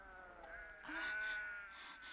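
A flock of sheep bleats at a well. One faint, wavering bleat swells in the middle and trails off over a soft background hum.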